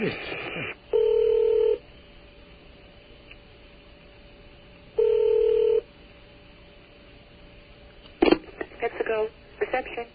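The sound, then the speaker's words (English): Telephone keypad tones as a call is placed to a corporate switchboard: two sustained, steady electronic tone bursts a few seconds apart over a quiet line, followed by a sharp click and a short stretch of scattered noise. “please dial the PepsiCo switchboard”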